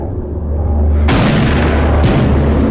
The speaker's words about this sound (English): Throwing down his rifle, Freddy fires a pistol.